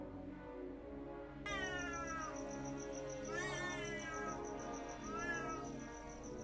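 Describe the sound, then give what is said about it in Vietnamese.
A cat meowing at midnight: three drawn-out, wavering cries with falling tails, separated by short pauses, over a faint steady high hum. “Cứ thử tưởng tượng, nửa đêm mà nghe cái tiếng mèo kêu thì có mà sợ chết khiếp.”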